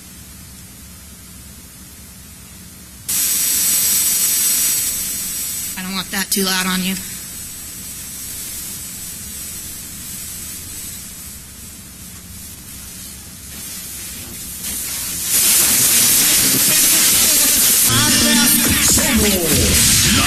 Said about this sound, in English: So I'm going to tune to an FM radio station. Let's see what's here in Vegas.